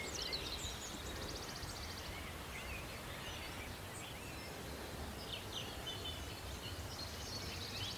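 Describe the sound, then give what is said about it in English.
Faint wood warbler song from the fringes of an oak wood on Sugar Loaf mountain: a few high, shivering trills rise briefly above a steady, low outdoor hiss. “You hear a wood warbler in the background, just up on the fringes of the oak wood.”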